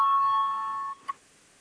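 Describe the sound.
An electronic chime sounds in a parliament chamber to call members to a vote, a sustained ringing tone that fades before one brief second ding.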